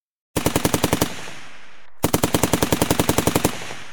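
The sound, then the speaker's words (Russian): Automatic gunfire from a column: two loud, rapid bursts of sharp, evenly spaced shots, separated by a pause of about a second, with a ringing decay carrying through the gap. “Огонь со стороны колонны продолжался.”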